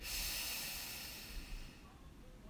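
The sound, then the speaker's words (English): A slow, deep breath drawn in and let out during a bedtime relaxation exercise, a soft airy hiss that is fullest at the start and then fades, quiet and without voices. “Just taking a deep breath in”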